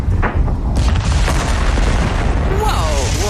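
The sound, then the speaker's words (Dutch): Rocket engines roar at launch in a dense, loud, continuous low rumble threaded with crackling bursts, filling the whole stretch without letting up. “ignition sequence start. 6, 5, 4, 3, 2, 1, 0, all engine running.”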